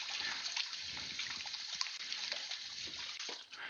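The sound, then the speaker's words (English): Running water pours steadily while hands are rinsed under a kitchen tap during cooking, giving a constant, fairly faint hiss with small splashing flickers and no pauses. “Let me rinse my hands.”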